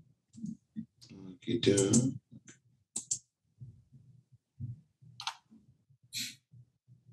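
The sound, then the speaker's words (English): Computer mouse clicks while opening a link in a new tab: a few sharp, quiet clicks scattered among soft talk. “Go ahead and right click on Orla Talion and open link in new tab, and that should give you her character sheet.”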